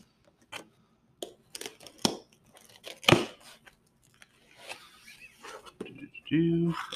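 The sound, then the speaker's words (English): Tape being torn off a cardboard box during an unboxing, heard as a few short, crackly ripping bursts among scattered handling and rustling noises. “Let's open it up. Excuse me. Just tear that bit of tape off.”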